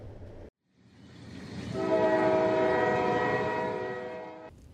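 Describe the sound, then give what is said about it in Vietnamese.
A train arrives at a station with a low rumble that swells steadily, then a single long horn blast holds a steady tone over it before cutting off. “Miki Station xin thông báo đoàn tàu Miki đã dừng chân tại trạm cuối cùng của hành trình, đưa quý khách đến nơi an toàn.”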